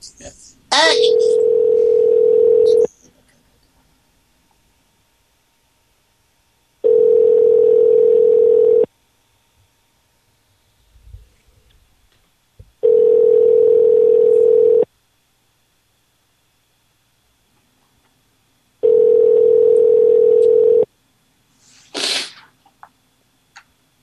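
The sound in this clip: A telephone ringback tone sounds while a call is placed: four long, steady mid-pitched tones of about two seconds each, separated by regular silences of roughly four seconds. Brief soft noises come between the rings.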